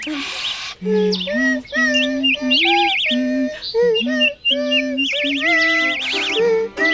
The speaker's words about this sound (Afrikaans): Die voeltjies bly daarom baie mooi, né? Ja, hulle klink so baie vrolik.